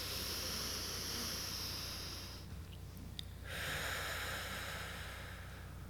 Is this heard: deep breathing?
yes